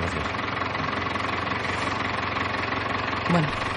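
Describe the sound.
A car engine idling during a drama film scene gives a steady, low, rumbling drone with a slight vibrating knock that runs continuously throughout.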